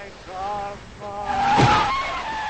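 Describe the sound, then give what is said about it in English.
A car approaching and skidding on wet gravel: a tonal engine drone grows louder, swells into a harsh, noisy skid, then carries on as a steady whine. “The car approaches from the other direction.”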